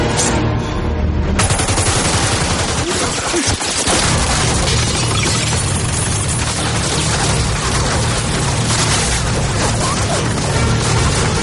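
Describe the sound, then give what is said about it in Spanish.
Machine-gun fire ripping through the compartments of a train from the corridor in a 2011 Sherlock Holmes action film: a loud, dense, sustained barrage of rapid shots mixed with crashing and splintering debris that continues throughout. “el resto de hombres uniformados preparan la ametralladora en el pasillo y comienzan a disparar hacia todos los compartimentos, abriendo grandes boquetes.”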